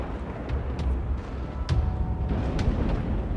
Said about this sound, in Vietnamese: Những tiếng sấm chớp đùng đùng vang lên.